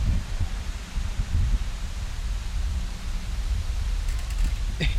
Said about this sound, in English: You hear that? Nature's unpredictable, guys. That's the wind. Nature's fucking up the podcast. Quiet down, leaves.